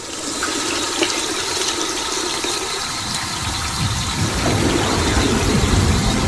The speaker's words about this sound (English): The little girl turns on the tap and soaps her hands. As she washes her hands, the water in the toilet bowls rises and turns brown.